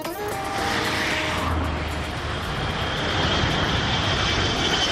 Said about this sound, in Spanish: Así suena un Gulfstream G4, que es un avión birreactor de pocas plazas que empezó a usarse en los años 80.